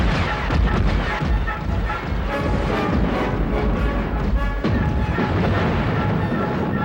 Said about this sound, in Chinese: 罗塔尔军将拜耶兰的舰队引进火线的集中点，立即以光束和飞弹发动近距离扫射。